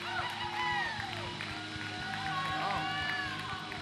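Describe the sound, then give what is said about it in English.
An audience cheering and applauding as a speaker is welcomed up: loud, continuous crowd noise with high whoops and shouts throughout. “But put your hands together, help me welcome up William Turner as he comes to kick things off.”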